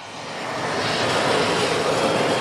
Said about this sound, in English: This is near Beirut's international airport. Dozens of planes take off and land here every day.